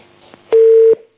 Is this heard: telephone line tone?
yes